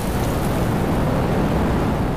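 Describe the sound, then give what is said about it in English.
A ferocious wind that has just started roars as a loud, steady rushing noise that stays constant throughout. “Her words were blown away by a ferocious wind that had just started.”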